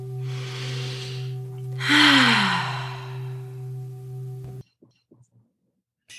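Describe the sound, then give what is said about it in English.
A deep breath drawn in and let out, heard as two long airy swells over a steady low hum. The second swell is louder. Near silence and a few faint clicks follow. “Let's all take a breath”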